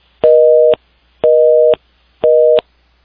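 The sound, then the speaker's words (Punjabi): A telephone busy tone follows a disconnected call line: three loud, even beeps, each about half a second long, separated by short silences in a steady rhythm. “Sukhdeep Kang ਜੀ ਦੀ ਜਿਹੜੀ line ਹੈ ਉਹ disconnect ਹੋ ਗਈ”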